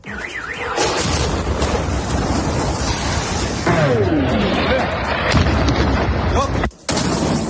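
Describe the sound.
Artillery shelling and explosions in Ukraine's Kherson region at Christmas, heard as continuous heavy rumbling and booms, with a warbling alarm-like tone early on and a falling whistle midway, loud throughout apart from one brief drop.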